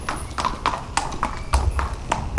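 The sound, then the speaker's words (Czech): Racehorses' hooves clip-clop as the horses walk from a training carousel to the stables, a steady, even rhythm of sharp hoof strikes with several footfalls in quick succession. “Koně High in the Sky a Godfrey míří od tréninkového kolotoče do stájí.”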